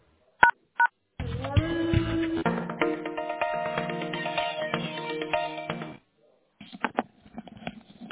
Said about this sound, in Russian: Одну секунду, переключаю вас на специалиста.